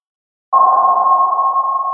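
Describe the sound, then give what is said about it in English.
A single sonar ping starts sharply after a brief silence. It holds one steady, pure mid-pitched tone without fading. “Sonar is a technology that uses sound to sense where objects are located.”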